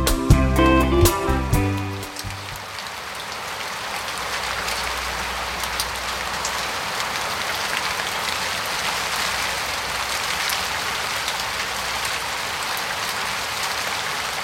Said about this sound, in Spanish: Entreabro los ojos y todavía entre sueños la escucho. La lluvia ha vuelto a mi balcón.